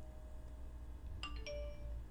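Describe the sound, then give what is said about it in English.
A doorbell gives a faint two-note chime, two bright tones in quick succession, over a steady low background hum. “Well, that was a doorbell and a phone ding.”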